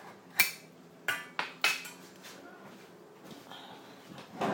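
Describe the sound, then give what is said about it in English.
Metal clanks of a lid being taken off a pan in a kitchen: a few sharp, bright clangs close together in the first two seconds, then softer rattles and knocks. “Now I'm just about to put the beans into the pan. Oops. If I can get the lid off,”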